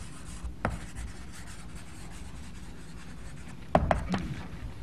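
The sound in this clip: Chalk-like scratching of writing on a board as an equation is written, a steady dry rasp of strokes with a sharp scrape early on and a louder cluster of strokes near the end, with no voice.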